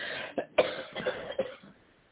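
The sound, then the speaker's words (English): A few faint coughs from someone with a cold and phlegm, short chesty bursts in quick succession that tail off into quiet. “here with our coughing and sniffling.”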